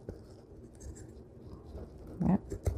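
Paper from an old book is quietly trimmed for a junk journal: faint scratchy rustling, then a couple of sharper cutting sounds near the end.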